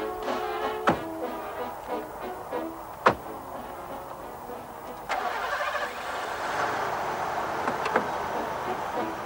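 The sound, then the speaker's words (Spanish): A car engine starts: a few sharp clicks, then the engine turns over about halfway through and settles into a steady, low running hum. No one speaks. “Enfadado, el marido monta en el coche y arranca el motor.”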